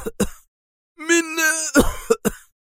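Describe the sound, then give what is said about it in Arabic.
An old man's violent coughing fit: a couple of harsh coughs, a drawn-out strained voiced wheeze, then several more rapid, rasping coughs. “ثم اجتاحته نوبة سعال عنيفة”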